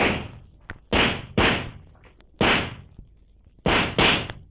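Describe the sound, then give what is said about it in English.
Gunshots in a radio drama: five loud, sharp bangs fired at irregular intervals, each with a quick decaying tail, separated by quiet gaps. “Perhaps Weymouth will hear the shots and investigate.”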